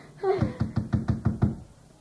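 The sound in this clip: Knocking on a door: a quick, evenly spaced run of firm knocks that stops after about a second and a half, leaving quiet behind it.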